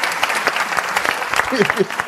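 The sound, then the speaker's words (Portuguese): An audience claps to welcome a guest on stage. Steady, dense applause continues throughout, with voices talking over it near the end. “Salve de palmas, vamos aqui.”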